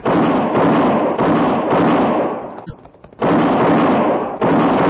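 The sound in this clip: Gunfire in a Western radio drama as riders come up the road: loud, overlapping bursts with hard onsets repeat through the scene, with one sharper crack near the middle and a brief lull before the shooting resumes.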